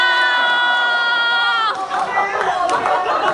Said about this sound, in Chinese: 你听朋友呐喊声